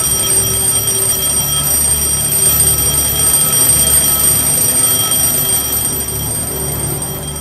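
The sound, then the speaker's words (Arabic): An alarm clock rings without a break, a shrill, steady, high-pitched electronic tone held at a constant loud level from start to finish, with no voices. “صوت المنبه كان بشع ومرعب.”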